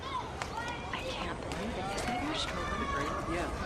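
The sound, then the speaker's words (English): A woman's quick, hurried footsteps as she walks rapidly away, a steady run of fast steps under background voices and chatter. “Her eyes dart, and her pace quickens as she hurries back the way she came.”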